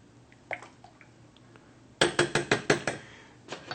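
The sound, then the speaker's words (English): Spoon knocking against a pot as rice is stirred in water: a quick burst of sharp metallic clinks and scrapes in the second half, with a few fainter taps before and one softer knock near the end. “Okay, we give it a nice stir.”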